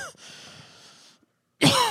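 A single loud, harsh cough from a tickle in the throat bursts out suddenly after a quiet, faintly breathy stretch and a brief silence.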